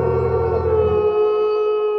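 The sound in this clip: A wolf howls at the full moon from a mountain peak, a loud, sustained tonal cry with rich layered harmonics that holds a steady pitch, its lower rumble thinning out about halfway through.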